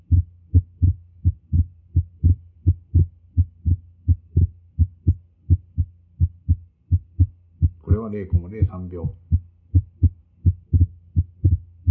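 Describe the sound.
First and second heart sounds, with the sounds splitting: low, dull thumps beat in a steady, even rhythm across the whole stretch, and a voice briefly speaks over them partway through.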